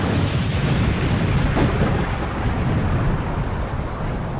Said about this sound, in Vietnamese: Chưa mắng hết cầu, lại nghe một tiếng nổ rền vang như sấm.